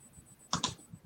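Quiet typing on a computer keyboard: two quick, crisp keystrokes close together, then a softer tap, over near silence.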